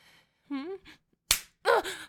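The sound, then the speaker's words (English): A slap against a person: one sharp, loud smack between pained vocal sounds, with a short moan before it and a strained cry around a second impact near the end. “Stop hitting me, please. What the fuck do you want? What will make you stop slapping me?”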